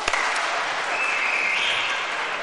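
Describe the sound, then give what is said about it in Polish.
Loud, dense applause from an audience at a gathering hosted by a priest: a steady wash of many clapping hands that holds evenly for the whole moment, with no voices standing out. “Gromkie brawa. Tych, którzy spotykają się z tratwą pierwszy raz, gromkie brawa robi się na raz. Gromkie brawa.”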